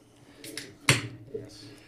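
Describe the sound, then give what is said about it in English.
A beer can is cracked open with one sharp pop and a brief fizzing hiss. A few softer clicks and rustles come before and after it. “Hold on, let me crack this beer.”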